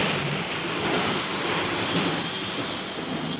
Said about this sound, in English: the sound you hear is the sound of the atmosphere. And the sound of wind. The sound of thunder. The sound of rain.